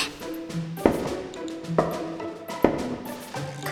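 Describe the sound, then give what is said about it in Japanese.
Three sharp knocks on a door, evenly spaced and loud, each standing out above steady music playing throughout. “扉を3回ノックするんですよね。”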